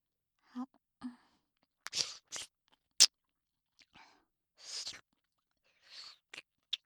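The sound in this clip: Someone eats hard candy, making quiet, irregular wet mouth sounds: sucking smacks, sharp little clicks and soft breathy noises separated by short silences.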